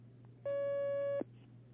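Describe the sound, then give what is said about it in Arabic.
Telephone line tone as a phone-in call connects: one steady electronic beep lasting under a second, clean and level, over a faint constant low hum. “نستقبل مكالمة أخي الكريم عبد الرزاق.”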